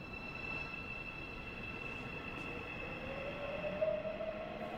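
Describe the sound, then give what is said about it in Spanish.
A subway train departing, a steady low rumble of wheels on rails with a thin, high squealing tone running through it, faint and even throughout. “El metro se marcha.”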